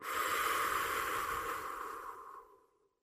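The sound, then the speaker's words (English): A deep, slow breath makes a long, soft, airy rush that holds steady and then fades away into silence. “Take another deep breath. Let it out.”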